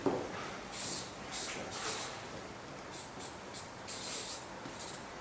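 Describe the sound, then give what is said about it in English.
Scratchy strokes of a lecturer writing down an equation, a faint string of short, brushing bursts in an irregular rhythm, with brief pauses between groups of strokes. “Now, the formula, the equation that describes this, I'll write it down, you don't need to know what it is.”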